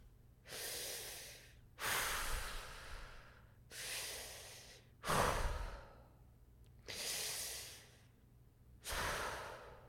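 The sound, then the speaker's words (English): Three slow, deep human breaths, each a long airy inhale followed by a long exhale, soft and evenly spaced with no talk. “Now we're gonna take three deep breaths.”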